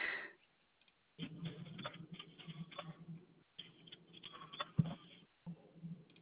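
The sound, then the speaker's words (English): Typing on a computer keyboard: faint bursts of quick clicks separated by short pauses, with no voices. “All right, let's take a look and see if I can type correctly.”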